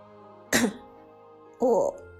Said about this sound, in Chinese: 黑火咳嗽一声沉声说道